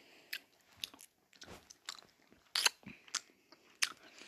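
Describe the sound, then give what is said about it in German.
Crunching bites and chewing on a Daim-style chocolate bar with a crispy top and nut and caramel inside. Many quiet, sharp crackling crunches come in an irregular series, with soft pauses between them. “Also es ist schon mal Schoko außen dran. Ich weiß nicht, was innen dran ist. Ich beiß mal an.”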